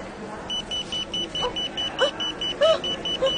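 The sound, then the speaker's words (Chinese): An airport luggage security scanner gives a rapid, regular series of short, high electronic beeps. The beeps are fairly faint and run steadily throughout, with light background noise. “阿小姐， 哔哔哔哔声嘅。”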